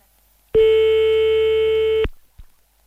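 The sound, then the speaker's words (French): A telephone line tone sounds while dialing out to a phone number: one steady, loud, unbroken beep lasting about a second and a half, with a few faint clicks after it. “Alors, on appelle, c'est parti. On appelle ailleurs, un autre numéro qu'on nous a envoyé par SMS, là.”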